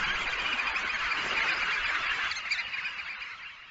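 A feeding flock of West Atlantic red knot shorebirds calls in a dense, continuous chorus of overlapping honking notes, loud at first and thinning out toward the end, with no voices.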